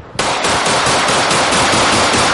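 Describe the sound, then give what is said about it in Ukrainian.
Automatic gunfire at firearms training erupts abruptly after a brief quiet moment, a loud, sustained burst of rapid shots that runs to the end without a break. “Вони бездоганно володіють усім, що може стріляти – від пістолета до снайперської гвинтівки.”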